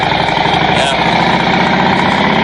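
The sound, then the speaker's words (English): A Harley-Davidson motorcycle engine gives a steady, dense, loud rumble that stays even and unbroken throughout, with no clear revving or change in pitch. “It's a Harley Davidson. And it sounds like this.”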